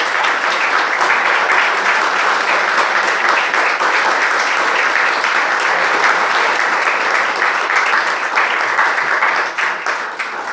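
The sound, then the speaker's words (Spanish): Audience applause at an inaugural conference lecture: dense, steady clapping runs loud and unbroken for about ten seconds, thinning slightly at the very end. “queremos agradecerle a Alfonso, un aplauso.”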